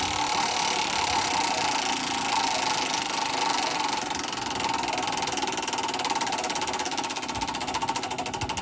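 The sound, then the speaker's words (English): A giant prize wheel, pulled and spinning, makes a rapid, continuous clatter of ticks from its pointer. The dense, even stream of clicks grows slightly more distinct and spaced toward the end. “I think that you definitely deserve to spin the wheel and read to us who comes up. All right. Are you ready? Let me walk over to this giant thing and give it a good pull.”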